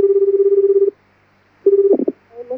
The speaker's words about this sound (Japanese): 早川幸雄さんに電話 します